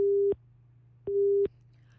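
A telephone busy tone sounds after a call is cut off: two long, steady mid-pitched beeps separated by a pause, over a faint low hum.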